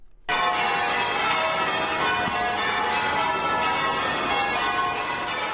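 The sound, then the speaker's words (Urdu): Church bells ringing from churches across Charleston, a dense, loud wash of overlapping metallic tones that starts abruptly and holds steady throughout, with no voices. “Charleston شہر کے تمام گرجا گھروں میں گھنٹیاں بجتی رہیں”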